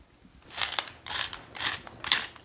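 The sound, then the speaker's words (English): A pepper mill grinds black pepper in four short, crunchy, ratcheting twists, fairly quiet and evenly spaced, with no talking. “Always freshly ground. Pepper loses its flavor so quickly after grinding.”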